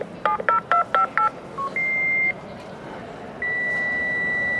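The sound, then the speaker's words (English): An old fax machine of the kind still used in German parliaments dials a rapid run of about five touch-tone beeps, then gives a short lower beep and two long, steady high handshake tones separated by a pause, over constant hiss. “This is the sound of the 90s, and like techno, it still resonates in the German capital. For listeners too young to remember, this is a fax machine”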